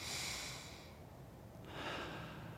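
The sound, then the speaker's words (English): A church audience takes a deep breath together: a faint, long breathy hiss as they inhale, a brief lull, then a second soft breathy swell as the air is let out. “let's do that with starting by just taking a deep breath in. Okay, everybody all at once. And let it out. One more.”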